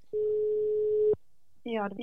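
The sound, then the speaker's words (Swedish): A telephone ringback tone sounds as a call rings out: one steady, low single-pitched tone lasting about a second, then a short silence before a voice answers. “Så vi ringer upp henne.”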